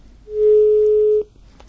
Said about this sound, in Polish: Urwało się połączenie.